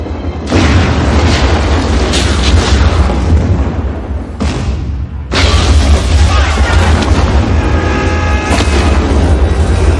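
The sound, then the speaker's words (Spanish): A loud, sustained roaring blast from the rooftop explosion and fireball on a skyscraper in Die Hard (1988). The dense rumble briefly drops away about halfway through, then surges back just as loud and holds to the end. “Hans prepara la explosión, John salta al vacío mientras una bola de fuego envuelve la azotea.”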